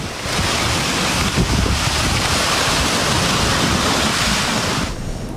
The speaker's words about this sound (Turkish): Kısa sürede etkili olan sağanakla birlikte oluşan sel suları mahalle içerisinden akarak işte böyle ilerledi.